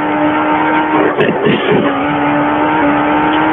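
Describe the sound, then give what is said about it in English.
A battered, damaged car drives along with its engine holding a steady, loud droning tone, while rough rumbling bumps break through near the middle; no voices are heard. “Let me pull over. I'm sorry about that. My car is trashed.”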